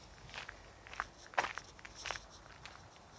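Soft footsteps of a person walking, heard as a few faint, irregular scuffing steps over a quiet background hiss.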